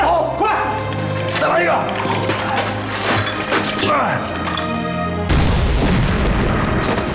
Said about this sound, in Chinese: 把大炮给我拉来，轰他！